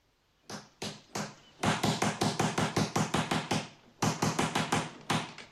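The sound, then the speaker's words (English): A door knocker is rapped on a pillared mansion door. A few sharp, separate knocks come first, then two long runs of rapid, even knocks with a brief pause between them. “uses the door knocker.”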